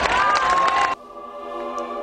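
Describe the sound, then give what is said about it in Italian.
Crowd applause and cheering in a dense, loud burst lasting about a second, then cut off abruptly and followed by steady tonal sound. “Ma hai visto quanta gente c'è al purgatorio che lo applaude?”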